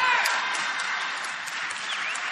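Audience clapping, a fairly subdued wash of many hands that starts slightly louder and then settles to a steady, even level.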